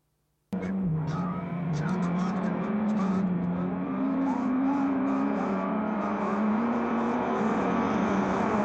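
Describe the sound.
A racing car engine from a sim racing video game starts abruptly after a brief silence and holds a loud, steady, buzzing drone with only slight pitch wavering, with no pauses.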